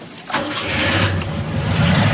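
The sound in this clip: A car engine cranking briefly and then catching, settling straight into a steady, low, rumbling idle that continues to the end.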